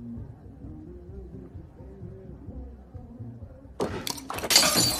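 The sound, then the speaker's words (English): A drinking glass thrown against a wall smashes in a loud, bright crash with scattering shards, bursting out abruptly after a quiet, low-pitched stretch. “He throws his glass against the wall, making her jump.”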